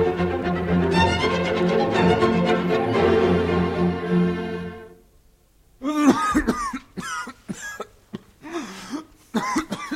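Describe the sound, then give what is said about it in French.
Harsh coughing from a man, a rapid run of many dry hacks with brief gaps between them. It follows a sustained low musical tone that fades out before the coughing begins. “Voilà une cruelle toux. Quel diable de toux.”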